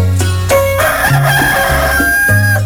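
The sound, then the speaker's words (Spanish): A rooster crows in a radio station's early-morning time announcement, with steady musical tones running beneath the call. “salía la voz del locutor ahí cuando sonaba el gallo”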